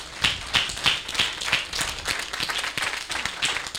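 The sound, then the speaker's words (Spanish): Congregation clapping hands in applause during a church service, a steady, rhythmic beat of many claps that thickens into fuller, denser clapping toward the end. “Vamos a darle un aplauso al Señor.”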